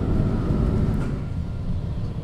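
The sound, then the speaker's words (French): A tram braking: a steady, low rumble of the rail vehicle, loud and continuous throughout the short span, with no other sounds standing out. “Le tram freine et je me fais emporter vers l'avant.”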